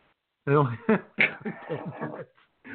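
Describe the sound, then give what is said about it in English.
A man has a coughing fit: several short, rough coughs in quick succession, mixed with voiced, throaty bursts. “And now he's got a little coughing fit of his own.”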